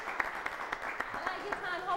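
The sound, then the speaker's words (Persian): An audience clapping for one another in a steady rhythm of sharp claps roughly every quarter second, with a voice talking over it. “حالا خواهش میکنم تمام دوستانی که اینجا نشستن برای بغل دستیاشون یه دست بزنن. بینند عزیز شما این کارو بکن. برای بغل دستیتون یه دست بزنن که در شأنش بشه.”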